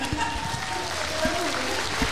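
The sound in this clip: Applause for a Sardinian artist at a music audition evening: a steady wash of clapping with voices over it.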